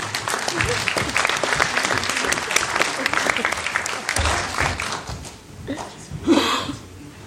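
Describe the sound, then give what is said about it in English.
Audience applause welcoming a guest to the front, dense and steady clapping for about five seconds before it thins out and tapers off. “Let's give him a hand.”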